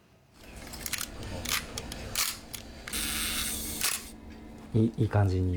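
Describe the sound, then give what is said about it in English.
Film camera shutters click in a Tokyo workshop where people learn to repair old film cameras. A few sharp mechanical clicks and snaps sound under a person talking. “That click sounds great. Not heard on modern cameras. The clicks are coming from a small workshop in Tokyo. People come here to learn how to repair film cameras.”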